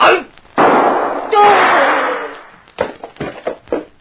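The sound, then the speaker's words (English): Gunshots in a radio drama, two loud, sharp bangs with long decaying tails, followed by a cluster of shorter knocks and thuds. “I am afraid poor Mr. Pulvey will do nothing anymore. Very stupid of any man to try shooting at a man who is behind him.”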